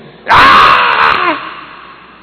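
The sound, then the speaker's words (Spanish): A voice imitates a pregnant woman screaming in labour pain: one loud, sustained scream lasting about a second that trails off with a falling pitch into quiet. “¿La mujer embarazada gime? ¿Sí o no? ¿Y da gritos? Claro que sí, gime. ¡Oh! Eso es gemir. ¿Y cómo da gritos?”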